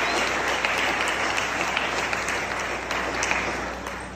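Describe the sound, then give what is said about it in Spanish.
Loud applause from a church audience clapping for their pastors, a thick continuous roar of hands with a few sharper claps poking out, easing slightly toward the end. “Let's hear it for your pastors. Vamos a aplaudir para los pastores.”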